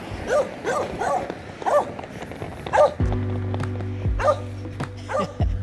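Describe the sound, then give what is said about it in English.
A small dog barks in a neighborhood during a walk, giving many short, high yaps at uneven intervals. A steady low hum joins partway through. “So you guys hear the little doggy?”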